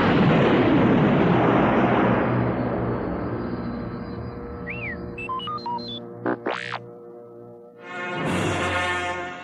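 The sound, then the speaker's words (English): A space station explodes in a science fiction sound effect: a long, roaring rumble that slowly fades. A few whistling electronic tones and sweeping chirps follow, then a final burst of noise. “As Luke lifted away, the Death Star exploded in a dazzling ball of flame.”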